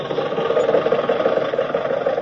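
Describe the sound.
A car engine runs as the car drives off, giving a steady mid-pitched hum with a slight rough pulsing. It is loud and even throughout, with no voices.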